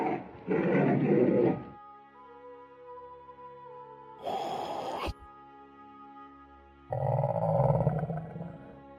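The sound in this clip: A lion roars three times in deep, rough bursts separated by pauses. The final roar is the longest and fullest.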